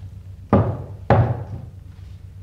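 Knocking on a gate: two loud, heavy knocks, each a sharp low thud with a short ringing decay, spaced about half a second apart.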